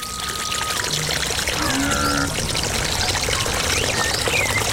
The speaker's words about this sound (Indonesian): Akang cuci tangan dulu ya.